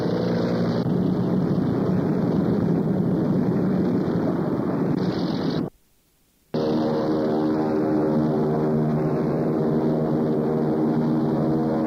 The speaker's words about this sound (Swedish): Ett plan av fredligt utseende mitt i stridszonen.